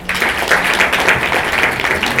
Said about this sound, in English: Another big clap.